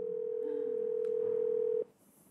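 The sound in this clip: A telephone ringing tone on an unanswered call: one steady, low-pitched tone held for nearly two seconds, then cut off, leaving faint hiss.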